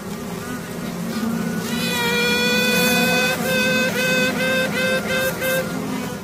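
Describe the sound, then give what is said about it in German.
Queen honeybee piping inside a hive in Telfs, Tyrol: one long, high, harmonic toot followed by a rapid series of short tooting pulses, all over the colony's constant buzzing drone. “So tutet eine Königin, um anderen Königinnen zu zeigen, dass sie da ist.”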